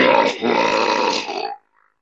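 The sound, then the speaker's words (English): A voice imitates a long belch in a Tuvan throat-singing style, with the tongue turned so the cheeks act as a resonating chamber. The sound is a loud, rough, buzzing drone of about one and a half seconds that ends with a brief faint tail. “it's not a real belch, because it's like a combination of Tuvan throat singing and turning your tongue inside out so that your cheeks, you know, are the echo chamber instead of your palate.”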